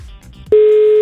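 Ringback tone of an unanswered phone call: after a near-silent first half, a single steady, loud, mid-pitched tone starts abruptly and holds unbroken to the end.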